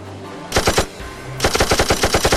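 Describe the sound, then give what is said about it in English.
Automatic gunfire from a guard's gun in a video game: a short burst of a few sharp shots, a brief pause, then a longer rapid burst of many evenly spaced loud shots, with no talk. “If you hit the space bar, you are shooting the, you're shooting the guard's gun.”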